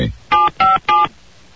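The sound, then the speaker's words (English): A telephone keypad being dialed: three short, evenly spaced touch-tone beeps, clear and alone, followed by silence. “Am I dialing this correctly? There we go.”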